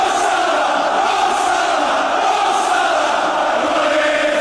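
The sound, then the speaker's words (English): A football crowd at Anfield stadium, Liverpool, cheers Mohamed Salah at his final game for the club. Its loud, dense roar holds steady without a break. “And the noises you're hearing right there are the noises from Anfield, Liverpool, as this morning, one of the greatest players to ever play Premier League football, Mohamed Salah, played his final game for the club.”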